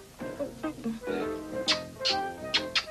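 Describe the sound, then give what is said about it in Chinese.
A person imitates mouse squeaks in a 1987 Cantonese cartoon, voicing a few quick, high-pitched squeaks after some lower vocal sounds. “哦，咁嘅样嚟啊，我都识得模仿老鼠叫噶喎。”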